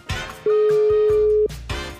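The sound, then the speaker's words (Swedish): Ringback tone while a phone call is being placed: one steady, loud, mid-pitched beep lasting about a second, set between other brief indistinct sounds. “Jag provar att ringa Rune igen.”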